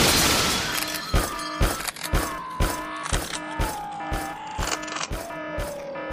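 Gunfire blasts ring out as a character fires while carried through a base in a steel robot's arms: many sharp bangs in a fast, steady rhythm over a sustained droning tone.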